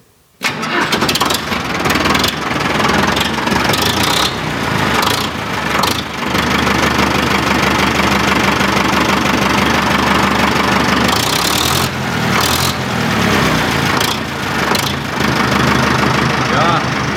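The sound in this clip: A large green Fendt tractor with front loader and high operating hours starts up, and its engine settles into a rough idle: a loud, steady diesel rumble with a knocking, uneven texture that runs throughout.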